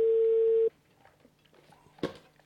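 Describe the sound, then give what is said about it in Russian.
A steady telephone tone sounds as a call is being dialed, holding loud and even for under a second before cutting off, followed by faint low hum and a brief sharp click. “Набираем.”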